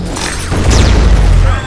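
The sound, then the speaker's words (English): Explosions erupt during a battle between mutants and giant robots: a deep, continuous booming rumble that swells louder partway through and holds as a heavy, sustained roar. “There are explosions everywhere as the mutants engage the monstrosities with everything they have.”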